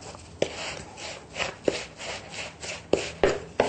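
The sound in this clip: Dry, stale breadcrumbs are mixed up in a bowl, giving a run of gritty scraping strokes punctuated by sharp, irregular clicks and taps, moderately loud and with no voices.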